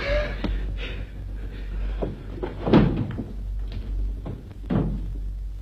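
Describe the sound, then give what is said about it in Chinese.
A door being opened: a few soft knocks and clunks with one louder thud near the middle, fairly faint over a low steady hum. “快开门”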